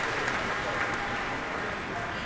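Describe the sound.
Concert audience applause at the Millennium Park pavilion, calling a pianist back to the stage for another bow: dense, even clapping that holds at a steady level throughout.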